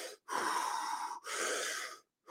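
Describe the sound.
Heavy, gasping breaths from a person who is out of breath, two long, loud, rasping breaths separated by short silences, heard alone.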